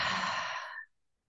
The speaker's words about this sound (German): Atme noch einmal tief durch die Nase ein und durch den Mund wieder aus.